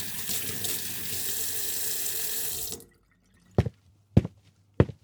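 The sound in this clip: A household tap runs in a steady splashing stream while hands are washed, then shuts off abruptly, leaving silence broken by three distinct water drips.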